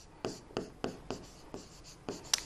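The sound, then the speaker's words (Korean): Writing on a board during an English grammar lesson: seven short, faint, scratchy strokes come in an uneven rhythm, with the last two close together. “자, 비동사 먼저 써주고 these라는 대명사를 써볼게요.”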